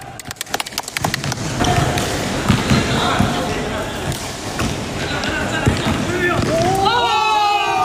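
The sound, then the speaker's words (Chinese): Colleagues playing a ball game together, a ball bouncing in quick, loud, rhythmic thumps at first, then continuing amid talking and shouting voices. “为了排解日常工作带来的压力，他常常组织同事一起打球，借此放松紧绷的神经。”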